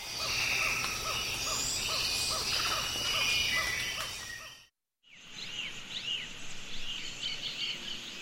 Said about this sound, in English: That's the sound of the Osa Peninsula in Costa Rica before and after logging in the late 1980s.